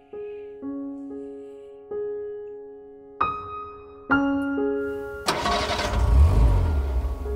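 Car engine starting as someone gets in and drives off: after a few sustained ringing musical tones, a rough, low engine rumble starts near the end and keeps running.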